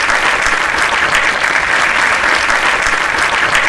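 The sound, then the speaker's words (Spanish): Audience applause for a live music act, a loud, dense wash of many hands clapping that holds evenly from start to finish. “gracias, un gran aplauso.”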